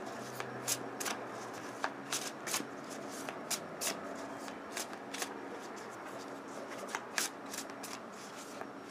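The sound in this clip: Playing cards being shuffled for a card reading: many crisp riffling snaps and soft slaps in an uneven rhythm, fairly faint over a steady background hiss.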